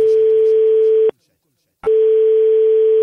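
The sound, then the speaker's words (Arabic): A telephone line tone opens a phone call to Qatar: a steady, mid-pitched tone holds for about a second, cuts off for a brief silence, then resumes and continues to the end. “هاني دبرت لكم سكوب عالمي، تليفون بين السحار مختار تليلي وصاحبه الشيخ كارول بترول في قطر”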